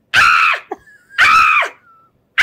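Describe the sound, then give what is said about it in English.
A person imitates a groundhog's scream with two loud, harsh, high shrieks. Each is followed by a thin whistling tail, and a third shriek is just starting as the sound cuts off. “you did that whole groundhog scream where you went,”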